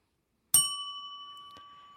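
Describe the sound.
A small bell rings once during a question game, struck with a bright, clear ding that sustains a pure tone and slowly fades over the next second and a half.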